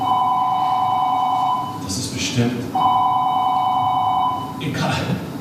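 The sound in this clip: A telephone rings in two long electronic trilling bursts. Voices are heard briefly in the gap between the rings and again after the second.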